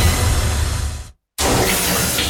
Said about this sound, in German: Dusche eiskalt.